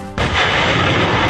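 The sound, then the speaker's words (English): A truck-mounted high-mobility artillery rocket system fires during military practice near the foothills of Mount Fuji in Japan: one sudden, sharp launch blast, then a loud sustained rushing roar that continues to the end. “That is the sound of U.S. Marines practicing firing a mobile rocket system days ago near the foothills of Mount Fuji in Japan. The high-mobility artillery rocket system, which is mounted on a military truck”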